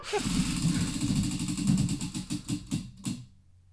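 A prize wheel spinning, giving fast ratcheting clicks that spread farther apart as it slows, then stop near the end.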